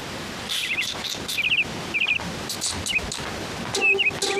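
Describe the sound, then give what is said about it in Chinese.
A caged bird chirps in short, high, trilled bursts, several spaced groups of quick notes standing out clearly over a faint background hiss, with no voices. “老爷子，逗鸟呢。 我要是您呢，我就把这鸟笼子打开，让它展翅高飞，那才叫快哉呢。”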